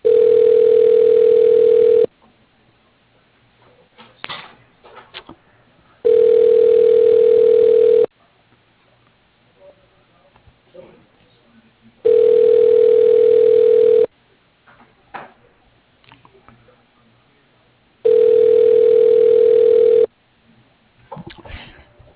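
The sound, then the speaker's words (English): A telephone ringback tone sounds while a call is being transferred. Four steady, evenly spaced two-second tones are separated by longer gaps holding only faint line noise. “To cancel and enter a different name, please hold while I transfer your call.”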